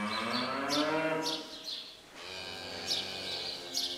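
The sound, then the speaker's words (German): Wagyu cattle moo in a barn in Schleswig-Holstein that holds about 150 cattle on straw. The drawn-out, low lowing comes in separate calls, with a few faint high bird chirps above. “Es kommt von den sogenannten Wagyu-Rindern, die eigentlich aus Japan stammen.”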